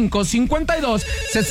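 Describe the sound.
A telephone rings with an incoming call, a short burst of ringing heard together with voices.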